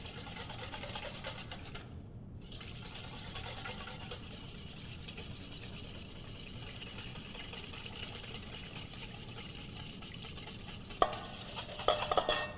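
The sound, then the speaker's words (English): Whisking olive oil into a salad dressing with minced shallots: a steady, brisk scraping and swishing of a whisk in a bowl, with a brief pause early on and a few sharper clinks near the end. “So while I'm whisking, I'm going to add my olive oil.”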